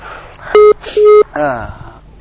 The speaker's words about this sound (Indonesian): tampaknya terputus sambungan teleponnya Ummu Lukman.